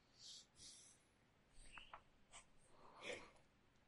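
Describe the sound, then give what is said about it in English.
Soft scratching of a pen writing in a notebook, a few short, faint strokes separated by quiet pauses. “I write it down in my notebook.”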